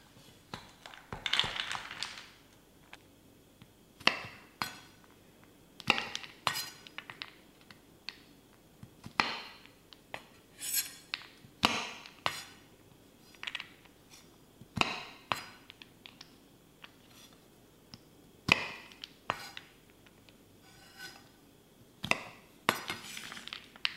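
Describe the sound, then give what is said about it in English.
Knife chopping ingredients: many sharp, irregular knocks and clicks spread throughout, some sounding with a faint clink. The loudness varies from stroke to stroke and there is no talk. “but let's weigh it out. Just gonna chop them up.”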